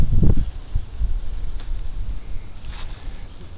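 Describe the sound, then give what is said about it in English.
Wind buffets the microphone outdoors, a rough low rumble heaviest at the start that keeps gusting throughout, mixed with light rustling. “I'm into the wind zone. Yeah, let's just turn around.”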